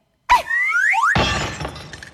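A toy flying saucer crashes and breaks: a short burst of warbling whistles sweeping upward, then a loud clattering, shattering crash that slowly fades.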